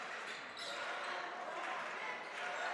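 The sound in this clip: A basketball is dribbled on the court during a boys high school game between Muhlenberg and Berks Catholic, its bounces blending into the steady, loud crowd noise of the gym.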